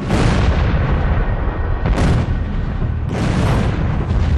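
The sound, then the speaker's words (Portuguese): A fireball exploding violently over the Tunguska forest in Siberia: a loud, continuous roaring rumble with fresh blasts swelling through it a couple of times. “Em minutos, a bola de fogo entrou na nossa atmosfera e explodiu com violência sobre a floresta de Tunguska, na Sibéria.”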